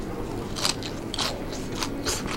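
Crisp crunching bites into bitter akebi vine sprouts, a quick series of sharp crunches over a low steady background.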